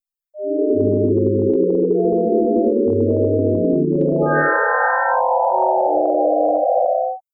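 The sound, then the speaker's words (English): Sonified star brightness data plays as layered, sustained electronic sine-like tones that shift in low, wavering steps, then suddenly jump to a much higher pitch midway before sliding back down to a middle register. “you're hearing a baseline star, which has a few oscillations in sound. And then suddenly there's a really high pitch jump and then it comes back down pretty quickly.”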